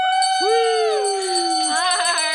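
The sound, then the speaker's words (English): A bell is rung, giving a loud, sustained, bright tone with shimmering overtones that hold steady and linger through the whole stretch. “I called the camera in here because you get to ring the bell”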